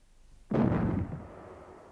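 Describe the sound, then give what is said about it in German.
A salute shot from small cannons: a single sudden, heavy boom about half a second in, followed by a rumbling tail that slowly fades, with no voices. “Zwei kleine Kanonen schossen harmlos wie ein Spielzeug zum blauen Himmel an. Beim Zeichen der Böllerschüsse”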